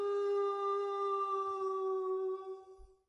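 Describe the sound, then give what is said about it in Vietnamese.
Dogs in a village howling: one long, sustained, tonal wail holding a steady pitch, dipping slightly and fading out toward the end, heard alone. “Lại một lần nữa đám chó trong xóm tru lên bất thường, như những khi tôi xuất hiện.”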